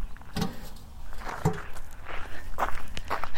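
Footsteps of people walking outdoors on a morning walk: several uneven, soft, scuffing steps against a low background rumble, with no talking.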